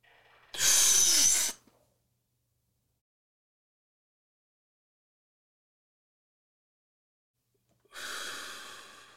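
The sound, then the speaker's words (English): A deep inhale during a guided breathing exercise: one loud, breathy intake of air, then about six seconds of silence while the breath is held, followed by a long, softer release of air. “we're going to inhale and hold it for 10 to 15 seconds.”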